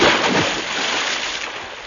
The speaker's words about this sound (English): Into the Atlantic we plunged. I swam strongly.